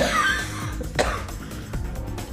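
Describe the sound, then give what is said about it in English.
A cough from a throat sore after much talking: a couple of short, sharp coughs over a quiet, steady background. “because I've been talking so much, my throat, I have a cough.”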